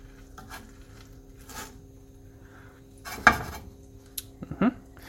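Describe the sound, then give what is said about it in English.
Bread is spun around in a toasting pan on the stove, giving a few soft scrapes, one sharper metallic clatter, then several brief clinks over a faint steady hum. “I just spin the bread around so it's getting toasted as evenly on the left quadrant of the bread as it is on the right quadrant of the bread.”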